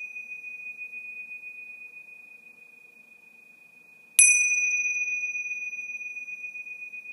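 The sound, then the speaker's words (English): A meditation chime rings out once with a bright metallic strike about two-thirds of the way through, its shimmering overtones decaying slowly over a steady, pure sustained tone that sounds throughout. “we'll use the chimes to remind us that as the sound goes out into the universe, it also goes deep within ourselves.”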